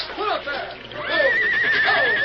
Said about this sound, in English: The horses. The current's carrying them away from the wagon.